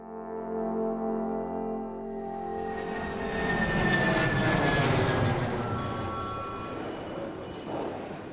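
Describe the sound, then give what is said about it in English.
Aircraft engine noise at a busy airport: a whining, multi-toned drone that swells into a loud, broad jet roar, holds, then eases slightly toward the end. “Home sweet home, and the airport is just as busy as ever.”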